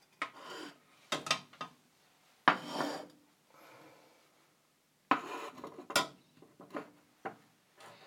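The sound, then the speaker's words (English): Bowls of a chili dish are swapped over and handled during a tasting. Quiet clinks, knocks and scrapes of crockery come in several scattered bursts separated by short quiet gaps. “Swap over the bowls.”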